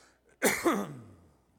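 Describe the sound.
Throat clearing from a tickle in the throat: a short, rough voiced burst with a second quick push, then a falling rasp that trails off into quiet.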